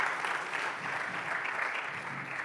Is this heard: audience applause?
yes